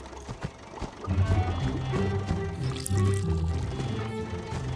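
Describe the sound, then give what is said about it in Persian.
Fuel pouring into a tank: a steady liquid gurgle and splash of filling that starts after a brief quiet moment and holds at an even level, alongside a low, steady hum. “ارل میشه لطفا اول سوخت کاسیا و بعد جینجر رو پر کنی؟”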